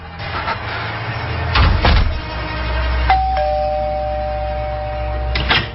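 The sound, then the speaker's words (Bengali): A doorbell rings with a two-note chime, a higher tone stepping to a slightly lower one that holds for about two seconds, loud and clear, with a few dull low thuds around it. “K K calling bell বাজালো?”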